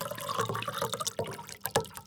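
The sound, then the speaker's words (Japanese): Fukushima sake glugs and splashes as it is poured from a Japanese four-go bottle, a faint, uneven gurgling stream with a few sharper splashy pulses. “日本酒独特の4号瓶の音なんですね。それでは正真正銘の福島の日本酒を注ぐ音をお聞きください。”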